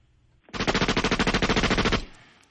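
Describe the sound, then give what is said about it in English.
A machine gun sound effect rips out one sustained burst of rapid, evenly spaced shots, loud and harsh, lasting about a second and a half before cutting off and fading. “And take me out, machine gun, with a thank you, Jesus.”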